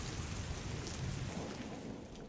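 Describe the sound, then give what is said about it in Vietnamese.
Heavy rain during a thunderstorm: a dense, loud, unbroken hiss of downpour that stays steady throughout. “Look at the rain. That must be a thunderstorm. Yeah, it looks pretty bad. How long has it been raining? It has been raining for 2 hours.”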